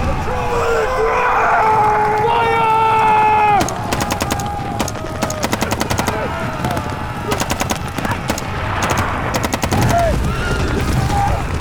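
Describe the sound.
Gunfire in rapid bursts of automatic fire, many shots crackling in fast volleys that start a few seconds in and keep returning, loud over a noisy, churning background.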